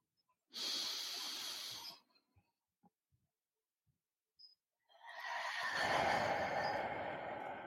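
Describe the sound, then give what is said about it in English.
Deep belly breathing during a relaxation exercise: two long, airy breath sounds, the first about a second and a half, the second longer and fuller, separated by a quiet pause with a few faint clicks. “Bring your hands over your belly and take a super deep belly breath.”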